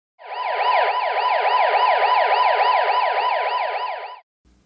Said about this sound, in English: A siren would typically go in the U.S. something like, woo, woo, woo, woo, woo. That's terrible, I know. I'll give you a better siren.